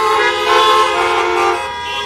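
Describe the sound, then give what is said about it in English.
Car horns honking together in one sustained, loud, blaring chord that lasts about two seconds without a break. “Honk your horn.”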